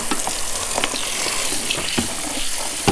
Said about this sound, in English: I have strawberries and raspberries. I'll just wash them all, and then it's good.